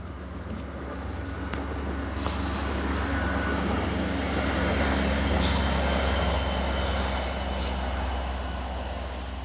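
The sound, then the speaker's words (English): A train passing makes a steady, broad rumble with a low droning hum that holds at an even loudness for the whole stretch, with no talking over it. “That's the train again.”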